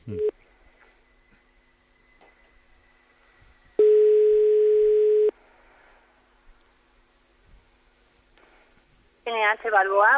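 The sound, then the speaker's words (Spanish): A telephone ringback tone sounds while a call is placed to a hotel on calle Núñez de Balboa. It is one steady, mid-pitched tone of about a second and a half, with a voice answering at the end. “Vamos a ver. Estamos marcando.”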